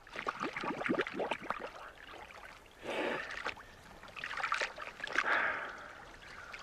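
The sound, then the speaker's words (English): Bubbles blown into water by a snorkeler with his face dipped under and the snorkel hung around his neck: a few breathy, gurgling bursts of air, separated by short pauses. “Daniel hangs his snorkel around his neck. He dips his face and blows bubbles.”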